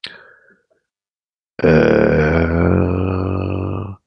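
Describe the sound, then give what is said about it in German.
A person lets out one long, loud, deep burp that rumbles steadily for over two seconds, preceded by a faint brief sound and a pause. “Jetzt muss ich mal aufstoßen hier.”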